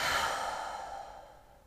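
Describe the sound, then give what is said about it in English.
A deep, slow exhale through the mouth, part of a conscious breath drawn in through the nose; soft and breathy, it starts fullest and gradually fades away over under two seconds. “let's pause and take a really nice deep conscious breath, inhaling fully through the nostrils if you can, and exhaling through the mouth.”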